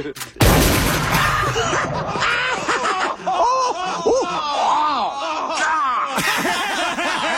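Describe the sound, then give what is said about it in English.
A shotgun blast to the face in a Jackass stunt cracks out as one sharp, loud burst near the start, followed by a long stretch of laughter and chattering voices. “Hello, my name's Johnny Knoxville, and I'm going to take a shotgun blast to the face. Okay, ready?”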